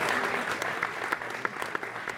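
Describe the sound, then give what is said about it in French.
An audience applauds after a stage show, a loud, continuous patter of many hands with a few sharper individual claps standing out as it goes on. “J'aimerais bien qu'il dise un petit mot sous vos applaudissements.”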